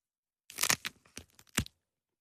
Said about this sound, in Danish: Hvis det ikke er en plastikblomst, så kan man spise knuppen. Så spiser du knuppen.